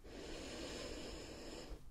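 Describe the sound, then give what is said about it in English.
A deep breath drawn in during a cranial nerve examination, a soft, steady airy hiss lasting nearly two seconds before it stops. “Let's do that one more time. Deep breath in”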